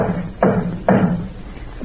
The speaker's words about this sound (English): Nanny, I told you. It's just somebody at the door.